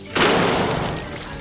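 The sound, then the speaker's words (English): A single gunshot as Teller shoots fish in a barrel: a sharp, loud crack followed by a noisy, decaying tail lasting about a second. “And Teller's going to shoot fish in a barrel.”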